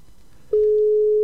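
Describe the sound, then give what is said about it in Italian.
A telephone call's ringing signal: after a moment of faint background noise, one steady, mid-pitched electronic tone switches on abruptly and holds loud and unbroken to the end, with no voices. “la chiamata dà il segnale. Lui dovrebbe rispondere.”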